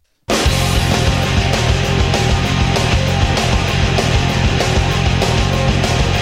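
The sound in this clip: A rock song from a 1990s band's second studio album plays: loud, dense full-band sound with driving drums, distorted guitars and bass. It kicks in abruptly after a moment of silence and holds a steady, pounding rhythm.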